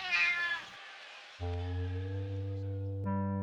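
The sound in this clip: A cat meows, fairly faint: a short meow followed after a pause by a long, drawn-out yowl.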